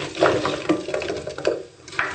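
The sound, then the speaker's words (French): Apples dropped into a hot pan coated with a tablespoon of vegan butter give a few soft bursts of sizzling and wet clattering, moderately quiet, with no talk. “la poêle est bien chaude. On a ajouté ici notre cuillère à table de beurre végétalien. On y ajoute les pommes.”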